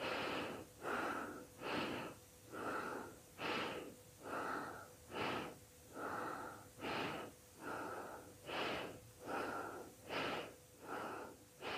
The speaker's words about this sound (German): Schließe dabei die Augen und atme diese Bastrika-Atmung.